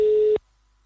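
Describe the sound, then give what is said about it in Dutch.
A telephone line tone sounds while a bingo winner is being called: a single steady, mid-pitched beep that holds briefly and then cuts off into silence. “We bellen met de winnaar natuurlijk.”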